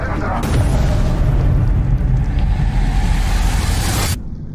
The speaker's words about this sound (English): 11, 10, 9, ignition sequence start. 6, 5, 4, 3, 2, 1, 0.